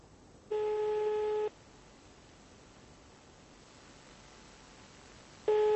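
A telephone line tone heard while a call is redialed: two steady, one-second tone bursts separated by a long stretch of soft line hiss.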